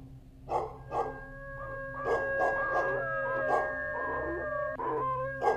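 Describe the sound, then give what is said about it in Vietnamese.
The neighbour's dog barks outside: many loud, tonal barks and yelps at an uneven pace, some close together and others spaced apart, over a low steady background. “Ở ngoài kia, con chó nhà hàng xóm nó vẫn cứ sủa nhấm nha nhấm nhằng. Thỉnh thoảng, con chó hình như là nó còn chĩa sang bên này, nó chu lên ông ổng.”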